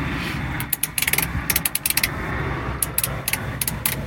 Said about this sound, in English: They are a rotary control that sounds like this,